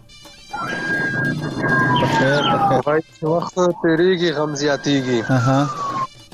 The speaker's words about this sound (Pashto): ستا بیک گراوند کې داسې د امبولانس او د پولیسو د ګاډي شور دی